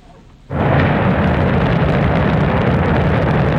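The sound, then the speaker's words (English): China's Shenzhou 23 rocket lifts off from a launch center in Inner Mongolia with an abrupt onset of deep, rumbling roar that then holds steady and loud without a break. “That's the sound of China's Shenzhou 23 rocket blasting off on Sunday from the Jingguquan Launch Center in Inner Mongolia.”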